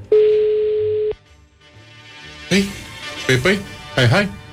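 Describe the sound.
Telephone ringback tone on a call: a single steady beep lasting about a second, followed by a quiet pause and then people talking.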